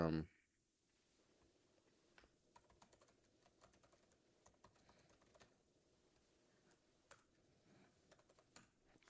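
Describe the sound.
Soft, irregular keyboard clicks from someone typing on a computer keyboard to log in. The many faint keystrokes come in uneven bursts over a quiet background.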